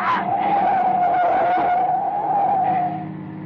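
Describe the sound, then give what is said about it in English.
Tires of a car skid in a sustained, high squeal on a dark road as another vehicle tries to run it off, holding steady for about three seconds before fading. “He's trying to run us off the road.”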